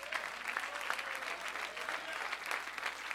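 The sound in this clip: Church audience applauding during a sermon, a continuous, even patter of many hands clapping together, holding a fairly constant moderate level from start to finish.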